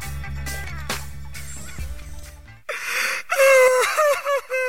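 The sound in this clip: A person crying and sobbing in gasping, wavering wails that rise and break between catches of breath. Rhythmic music runs first, then cuts out just before the loud, uneven sobs take over.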